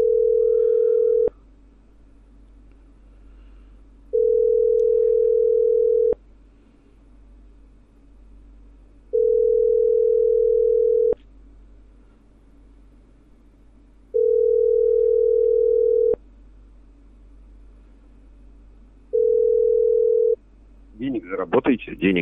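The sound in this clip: Telephone ringback tones sound while a number is being called. Five long, steady, mid-pitched tones come at even intervals with quiet gaps between them, and a short burst of noise follows at the end.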